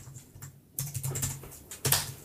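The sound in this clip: Typing notes on a computer keyboard: uneven bursts of clicking keystrokes, with a soft patter at first, then two louder flurries of keys, over a faint low hum.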